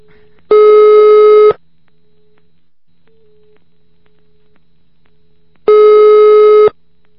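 A telephone line tone plays during a call to the police: two loud, steady buzzing tones about a second long each, separated by several seconds of quiet line hiss, with no talking.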